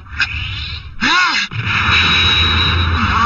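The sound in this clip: Cartoon sound effect for a spinning soccer ball shot in the anime Supercampeones: a brief whooshing burst with a warbling, ringing tone near the middle, set against a steady tonal background.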